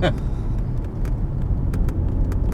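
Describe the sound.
Car driving along a hilly road, with a steady low engine drone and road rumble running throughout and a few faint, brief ticks on top.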